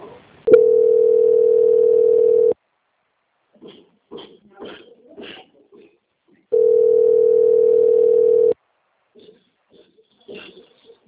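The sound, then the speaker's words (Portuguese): Telephone line tone plays while a call is transferred: two long, steady, mid-pitched tones of about two seconds each, with short fragments of voice between them. “agora eu peço que a senhora aguarde em linha que eu vou transferir o contato”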